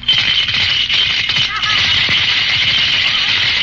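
Coins rattling inside a hand grenade used as a piggy bank as it is shaken, a loud, steady metallic clatter that runs for a few seconds without pause.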